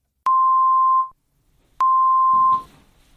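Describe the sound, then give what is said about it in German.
Two short, steady test beeps at the same mid pitch, the first in the left channel and the second in the right. Each lasts under a second, with a brief silence between them, and a faint noise follows the second. “werden vor dem Hörspiel zwei kurze Signaltöne erklingen. Der erste Ton links, der zweite rechts.”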